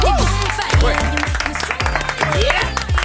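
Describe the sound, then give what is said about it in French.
Applause with cheering welcomes a caller on a game show, lively clapping under whooping voices that swoop up and down in pitch. “Applaudissements pour Charlotte.”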